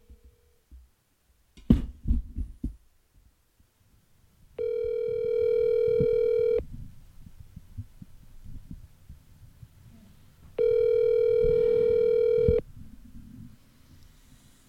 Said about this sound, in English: We need to blow in a call to one of my favorite people in the world